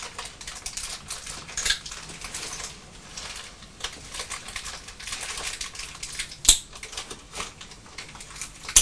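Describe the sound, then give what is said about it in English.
Scissors snip as someone cuts carefully. Faint, irregular small clicks run over a steady hiss, with a few sharper snaps standing out. “Concentrating very hard with your scissors, aren't you? Do you like snipping? Snip, snip, snip, snap.”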